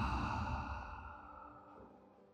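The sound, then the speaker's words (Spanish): A person exhales slowly during a guided breathing exercise. The soft, breathy rush is faint and tapers away over about two seconds, with no talk. “Una vez más, inhala. Y exhala.”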